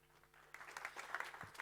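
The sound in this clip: Faint audience applause welcoming a speaker to the stage at a talk, a soft, continuous patter of many hands that grows slightly after a quiet start.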